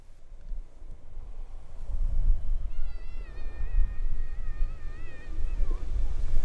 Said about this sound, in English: Yes, that sound you can hear is not a sound effect. That is a genuine ocean. Yeah, we're genuinely sat on the beach down at Hove, almost 2 metres apart on this pebbly beach.